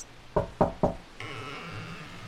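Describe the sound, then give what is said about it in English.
Three sharp knocks on a door come in quick, evenly spaced succession, each a short dull thud; no voices are heard. “I'll knock. Anybody home?”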